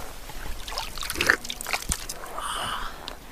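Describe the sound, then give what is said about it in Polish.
Spring water slurped from the source, a few wet, sucking sips over steady background noise. “Przepraszam za odgłos siorbania, ale najlepiej on odda nam tutaj.”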